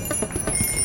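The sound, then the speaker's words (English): Bicycle bells ring on a road full of bikes, a rapid run of bright, metallic strikes repeating in quick, even succession with no pause. “That's the sound of a road full of people on bikes.”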